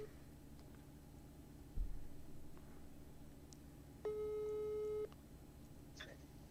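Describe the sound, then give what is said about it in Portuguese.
A dull thump comes first, then a single steady telephone busy tone of about one second sounds alone as a call is placed, with quiet before and after. “E agora eu tenho que fazer aquela ligação pro nosso diretor, porque ele que encerra. Tem um jeito especial que o nosso diretor encerra aqui essa live. Então só um minutinho.”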